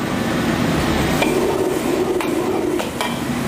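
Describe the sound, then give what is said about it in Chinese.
Seasoned chicken and shiitake mushrooms sizzle in a wok as they are stir-fried, a steady loud hiss with a few faint metallic scrapes of the utensil against the pan. “鸡肉调味之后，放入事先准备好的香菇，”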